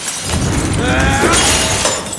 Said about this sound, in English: In the study, Dale vents his anger on the video equipment. He then smashes the glass case containing the other killing hammer.